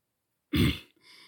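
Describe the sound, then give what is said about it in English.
A man clears his throat with one short, rough, low burst, followed by a softer trailing rasp. No one speaks. “He clears his throat instead.”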